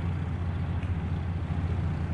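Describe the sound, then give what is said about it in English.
Low, steady engine rumble of a car driving on city streets in Irvine, a quiet continuous drone with no distinct events. “I'm driving down the terrible streets of Capel and Irvine,”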